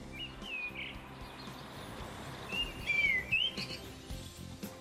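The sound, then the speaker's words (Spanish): An urban bird calls with a few thin, high chirps in two short bursts, one near the start and one in the middle. The calls rise over a quiet low background rumble. “Ese es el sonido de un ave urbana”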